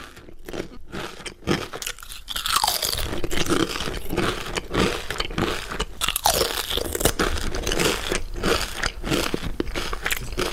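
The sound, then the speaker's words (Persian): Crisp crunching of potato chips being bitten and chewed: many sharp, crackly bursts in an irregular rhythm, loud and nearly continuous, with no voices. “وقتی صدای چیپس با فرکانس های بالا تقویت می شود، افراد آن را ترتر و تازه تر احساس می کنند.”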